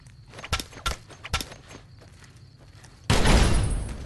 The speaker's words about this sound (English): That whir sound is Arcade's plasma outfit.